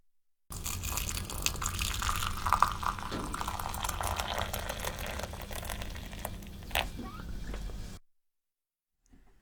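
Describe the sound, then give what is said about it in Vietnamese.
Hot water, cooled to about 90 degrees after boiling, is poured into a small teapot holding tea leaves, making a steady gushing, splashing pour for about seven seconds before it stops abruptly. “Cho lá trà vào một ấm trà nhỏ, rồi đổ nước nóng vào.”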